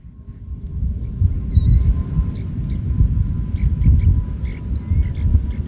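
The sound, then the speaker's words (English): A western snowy plover chick chirps from inside its egg just before hatching. Two brief bursts of thin, high peeps sound faintly over a steady low rumbling noise. “That's the sound of a snowy plover chick chirping from inside an egg. The chicks tap at the eggs just before hatching.”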